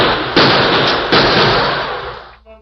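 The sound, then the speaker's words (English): Gunfire in a radio drama, with two loud, sharp gunshots, each trailing into a long, rumbling decay that fades out. “As they hugged the floor and dodged lead from the outlaws' flaming guns”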